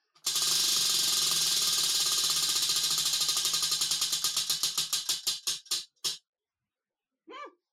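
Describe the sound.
A game prize wheel spun on camera to pick a word: its pointer ratchets off the pegs in rapid clicks that slow and space out until the wheel stops, followed by a brief voice.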